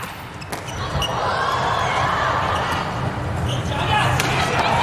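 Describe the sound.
A volleyball serve being struck during a match: sharp, slapping hits over a steady, dense wash of crowd noise.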